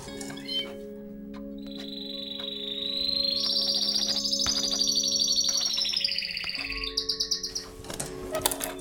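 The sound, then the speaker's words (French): A charming bird chirping, a sustained high warbling trill that climbs in steps and then breaks into rapid repeated chirps near the end, over a low steady hum. “Pas de vous perdre dans la contemplation de ce charmant volatile. Aussi beau soit-il.”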